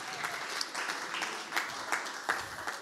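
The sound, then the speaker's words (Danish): Applause from an audience celebrating a woman's birthday: a steady patter of many hands clapping, fairly loud and continuous, with a few stronger bursts. “Så jeg synes lige, vi skal give hende et hui.”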